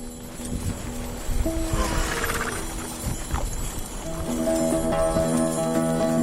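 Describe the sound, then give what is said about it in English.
Hooves clip-clop steadily as a horse pulls a fancy antique sleigh around a farm, a loose rhythmic clatter with rustling and creaking, joined by sustained tonal sounds in the later seconds. “We hitch up to one of the fancier antique sleighs that'll be selling at auction in a few days and take it out for one last spin around the farm.”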